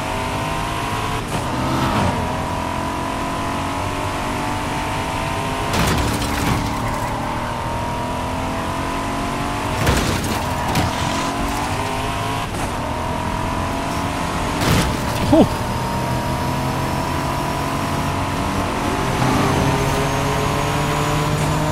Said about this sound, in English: I mean, I'm driving somewhere.